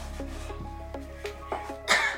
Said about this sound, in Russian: Родители прислушиваются к кашлю.